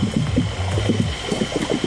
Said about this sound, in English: Okay, Burjo's Bowser is ready to pump.